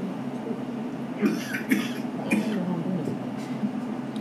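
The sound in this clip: A person coughing in a few short, harsh bursts spread over several seconds, standing out over a steady, noisy background.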